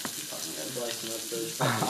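Onions frying in a pan for hot dogs: a continuous, crackling sizzle with bright hiss that stays steady, then grows louder in a burst near the end.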